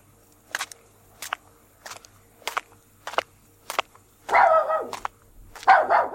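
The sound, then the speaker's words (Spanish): A dachshund barks on a bridge, giving six short, sharp barks at fairly even intervals, followed by two longer, louder bursts of sound. “Una mujer con un perro salchicha por el puente del cachorro.”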